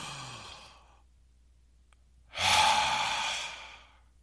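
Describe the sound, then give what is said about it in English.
Deep breathing during a relaxation exercise: a breath is drawn in, followed by a brief pause, then let out in a loud, airy sighing exhale that slowly tapers off. No talking is heard. “Just relax. Take a really deep breath.”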